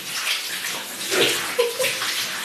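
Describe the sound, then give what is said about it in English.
Water runs steadily into a bath while hair is rinsed, a constant rushing spray with a few small splashes on top. “I'm rinsing my hair as well.”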